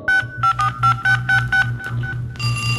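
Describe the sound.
Telephone number being dialled: a quick run of clipped keypad tones, then a steady tone held to the end, all over a low hum.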